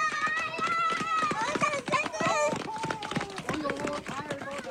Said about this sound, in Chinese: 车子刚刚停稳，十来个身影就从山坡上冲了下来。